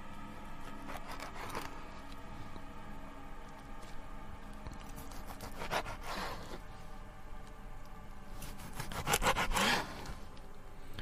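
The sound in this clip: A knife saws stroke by stroke through a freshly dead, still-stiff body, a few slow, laboured rasping strokes spaced seconds apart over a faint, steady hiss, with no talk.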